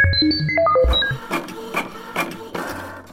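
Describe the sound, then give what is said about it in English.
A radio station's riddle machine starts up: a quick run of stepped electronic beeps at shifting pitches, then a few rattling mechanical clacks and whirs that repeat at an uneven pace. “Oh, I hear Carl, the station manager, firing up the riddle machine.”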